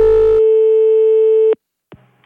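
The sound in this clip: Telephone tone after a caller hangs up, heard on the line: a loud, steady, pure electronic hum held for just over a second that cuts off sharply, followed by a faint click and a brief low rustle.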